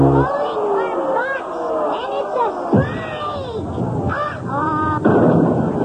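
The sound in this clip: Whammy sound effect from the Press Your Luck game show: a busy cartoonish run of sliding, warbling tones broken by sudden bursts and thumps, loud and dense from start to finish.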